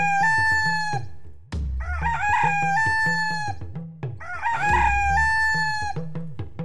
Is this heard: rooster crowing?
yes

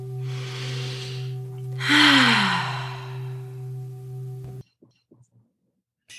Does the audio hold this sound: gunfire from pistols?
no

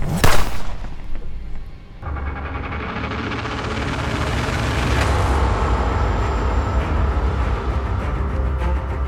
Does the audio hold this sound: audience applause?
no

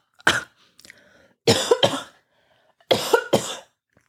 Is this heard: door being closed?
no

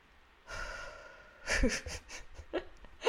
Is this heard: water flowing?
no

